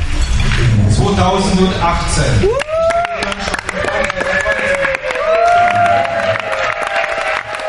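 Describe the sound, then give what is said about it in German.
Crowd cheering and clapping from the French women's torball team after their 4-2 final win over Germany at the International Nations Cup. A loud wash of crowd noise gives way to excited shouting voices over continued clapping. “Der Jubel bei den Französinnen hörbar groß nach diesem 4-2 Finalsieg über Deutschland.”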